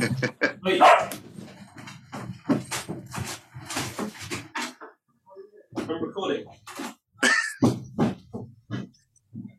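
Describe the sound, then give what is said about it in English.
A guard dog barks loudly a few times, with sharp separate barks breaking into a stretch of conversation. People keep talking around the barks. “That's the dog joining us. That's your guard dog.”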